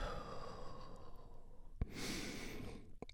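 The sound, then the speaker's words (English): A slow, deep breath drawn in and then released in a soft, airy exhale, quiet and breathy throughout. “Take a deep healing breath with me. Right now, all together, here we go. And release.”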